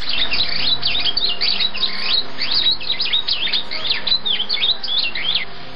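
Bright, rapid chirps and warbles of a golden bird that lives in a golden tree on an island in a fairy tale, with many quick high trills repeating steadily over a low background rumble.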